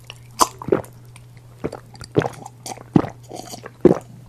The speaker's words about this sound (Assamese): বটলৰ সাফৰখন গুচাই মই মোৰ শুকাই কৰকৰীয়া মৰা কণ্ঠনলীটোত পানী অলপ বাকি দিলোঁ।